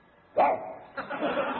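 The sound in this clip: A man imitating a dog barking with his voice: a loud, sharp first bark, then a longer, rougher second one, with no words spoken.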